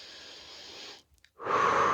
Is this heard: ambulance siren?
no

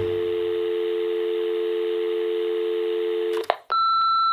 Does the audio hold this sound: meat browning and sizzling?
no

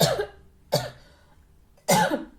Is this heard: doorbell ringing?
no

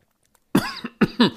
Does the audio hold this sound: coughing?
yes

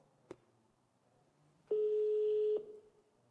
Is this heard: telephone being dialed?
yes

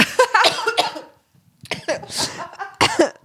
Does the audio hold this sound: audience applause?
no

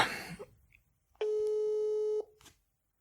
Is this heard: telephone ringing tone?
yes

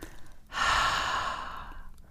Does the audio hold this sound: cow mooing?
no

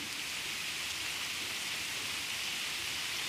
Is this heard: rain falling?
yes

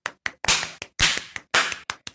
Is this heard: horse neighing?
no

